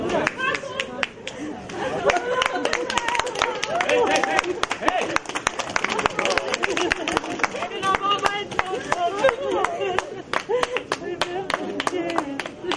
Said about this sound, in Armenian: Զվարթնոց օդանավակայանում հավաքված Հակոբի հարազատները ծափահարություններով դիմավորեցին նրան, մեջքին պարզելով Հայաստանի եռագույն դրոշը։